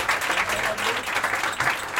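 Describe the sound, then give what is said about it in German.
An audience applauds, with dense, steady clapping from many hands that holds at an even, lively level throughout. “Ein riesen Applaus!”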